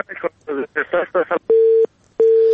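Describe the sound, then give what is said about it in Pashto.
Telephone keypad buttons give two identical steady electronic beeps, each about a third of a second long, right after a short stretch of talk. “د تلیفون په سویچو باندې ګوتې مو وهنو دا ټونګ ټونګې مونږ ته راځي”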